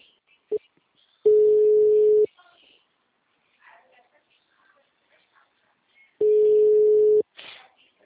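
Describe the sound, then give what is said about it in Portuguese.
The ringback tone of an unanswered phone call: two steady mid-pitched tones, each about a second long, separated by a long silent gap, with faint brief voice sounds between them. “Tô tentando ligar pra ela pra avisar que o dinheiro tá na conta, ela não me atende.”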